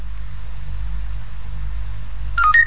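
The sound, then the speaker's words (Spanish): A mobile phone's hands-free speed-dial key sounds a short electronic tone, a brief stepped beep near the end, heard over a steady low hum and faint hiss with no talking. “Si yo voy a presionar la tecla del manos libre, eso tiene dos teclas grandes. La tecla de arriba, después del tono, yo voy a decir un nombre.”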